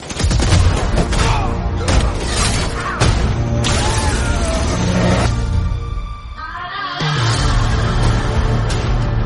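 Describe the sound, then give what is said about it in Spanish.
Gunfire in a fantasy army battle scene after an order to open fire: bursts of shots, booms and crashing impacts in a dense, loud mix that dips briefly before surging again. “¡Abrid fuego!”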